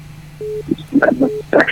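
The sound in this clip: Beeps of a phone call disconnecting during a radio call-in show: two short, steady mid-pitched tones with a man's voice talking around and after them.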